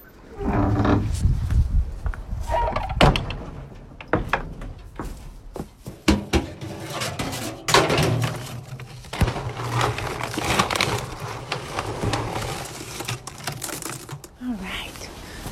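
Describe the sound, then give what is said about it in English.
Feed being scooped in a barn gives a run of rough scraping and rustling bursts, noisy and fairly loud, repeating irregularly throughout. “the farm duties still go on as normal, like scooping feed in the barn.”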